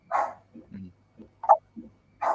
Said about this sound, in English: I apologise if you can hear my dog barking in the background. It's obviously somebody at the door.